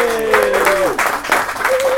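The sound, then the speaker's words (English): Applause for the winner of a city grand prix competition, a dense, loud, continuous clatter of clapping with a voice-like whoop or cheer sliding down in pitch over it and more calling near the end. “we've just heard the round of applause for Jasmine Tetley”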